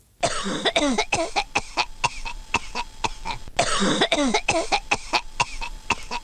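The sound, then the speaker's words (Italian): A person coughs hard in a demonstration of cough types, sounding as if choking: two long bouts of many harsh, rapid coughs with raspy, wheezing breaths between them. “Abbiamo ancora un altro tipo di tosse da sentire?”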